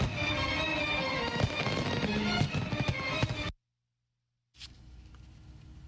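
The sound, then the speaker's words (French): Fireworks burst over the U.S. Capitol in Washington after a July 4 concert. A dense run of many loud booms and crackles stops abruptly, then after a short silence a fainter crackle resumes with one sharp onset. “Célébration 4 juillet a été fini comme d'habitude avec un gros concert devant Congrès avec feu d'artifice qui t'a tiré en l'air dans le ciel capital là.”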